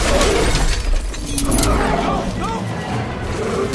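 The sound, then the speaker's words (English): Glass of a gyrosphere shattering in the jaws of the Indominus dinosaur: loud, dense crunching and crackling of breaking glass fills the whole stretch over a low rumble. “They flee as the Indominus breaks the glass from her jaws.”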